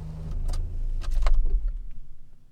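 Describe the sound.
Car driving through living countryside on Lovö, a steady low engine and road rumble with light rattling on top, continuous throughout.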